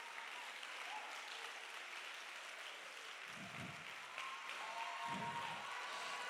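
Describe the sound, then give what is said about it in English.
A church audience clapping hands during a revival service, a faint, steady patter of many hands that runs throughout, with a couple of soft low thuds partway. “go ahead, clap your hands a little bit right now.”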